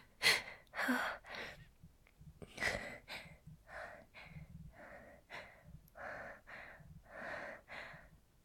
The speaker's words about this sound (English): Let me catch my breath first.